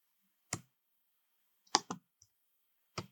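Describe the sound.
Computer mouse clicks while navigating a web page to a payroll calculation: a few sharp, dry taps spaced apart by silence, with two of them falling close together.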